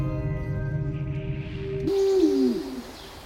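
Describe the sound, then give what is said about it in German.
An eagle-owl gives a single drawn-out hoot that slides downward in pitch, following a steady low hum that runs through the opening part. “Was will diese Eule? Das ist ein Uhu.”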